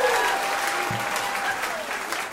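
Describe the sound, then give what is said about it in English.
Audience applause at a live country music show, a dense, steady wash of many hands clapping that holds at an even level for the whole stretch without a break. “Let's have a round of applause for the lady who agreed to sleep with us for the next 40 years.”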